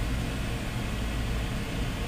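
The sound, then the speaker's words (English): An air conditioner running in a radio studio gives a steady, even rushing hiss with a heavy low-end hum, unchanging in level throughout. “And yes, I am running the air conditioner here in the studio. At least during the first set of the program.”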